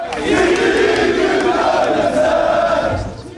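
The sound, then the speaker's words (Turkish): Yellow-and-navy football supporters celebrate a semi-final win late into the night in Kızılay Square, Ankara, with a loud, dense crowd roar and chanting that holds steady throughout, then eases slightly at the end. “Kutlamalar geç saatlere kadar sürdü. Başkent Ankara'daki kutlamaların adresi Kızılay Meydanı oldu.”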